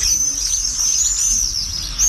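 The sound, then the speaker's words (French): Common swifts call in flight overhead, a shrill, high, continuous screaming trill that wavers slightly and carries on without pause, with no voices. “on a le martinet noir, tout noir, plus grand, des grandes ailes. C'est un oiseau qui se pose jamais. Puis il suffit de lever les yeux au ciel.”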